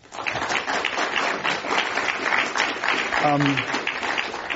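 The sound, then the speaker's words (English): Audience applause welcoming three company CEOs to a panel discussion on liquid transportation fuels: dense, steady clapping that carries on at an even level throughout. “Please welcome them to Climate One.”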